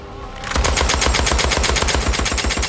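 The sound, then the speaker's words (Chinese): A Lewis machine gun fires one long, loud, continuous burst. Rapid shots follow each other in an even, fast rhythm after a brief quiet start. No voices are heard. “这边在押送弗莱尼的途中，好兄弟丹尼端着那把刘易斯机枪，神兵天降，将人给劫走。”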